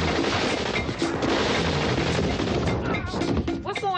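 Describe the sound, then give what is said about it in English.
Machine-gun fire rips through a drive-by shooting in a film scene as a dense, loud, continuous barrage of rapid shots, with voices breaking through near the end. “It sounds like machine guns.”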